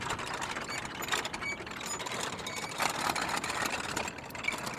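Prayer wheels with smooth, well-worn wooden handles spin along a walking trail in the Annapurna region. A steady ratcheting, rattling mechanical whir runs throughout, broken by a few sharper clicks.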